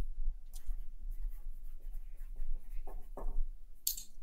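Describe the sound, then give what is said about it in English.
A pen writes on paper, making soft scratchy strokes in short bursts over a low steady hum, with a few louder scrapes near the end. “No, I'm writing. Good stuff. No, I'm writing. I'm very attentive here to what you're saying.”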